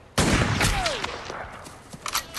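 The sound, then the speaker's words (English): A single rifle shot from an M16: one sharp, loud crack followed by a long, rumbling decay, with a few fainter knocks near the end. “He fires his .22 at them. The Marines take him out with a single shot from an M16.”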